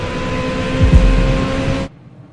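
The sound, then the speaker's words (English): A Ferrari sports car with paddle shifters and twin exhausts revving: a loud, steady engine roar that swells briefly in the middle, then cuts off abruptly near the end. “Blue flames spurt from the twin exhaust pipes. Sonny flicks a small gear shift paddle on the steering wheel, and the Ferrari weaves across lanes.”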